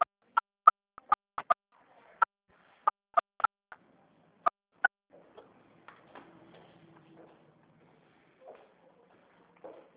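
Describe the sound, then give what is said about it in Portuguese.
Telephone keypad tones as a caller types a CPF ID number into a bank's automated phone menu: a quick run of many short, sharp beeps at an uneven pace, followed by a few seconds of faint low noise. “Para a gente começar, digite, por favor, o número do seu CPF.”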